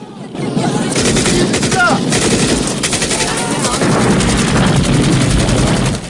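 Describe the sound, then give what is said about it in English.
Dense gunfire from a war film, with weapons firing at trucks burning on a bridge and guards shooting back from it. Loud, rapid automatic bursts crackle almost without pause through the whole clip. “He fires again, taking out all the trucks. Viet guards run past their burning vehicles and fire off the bridge.”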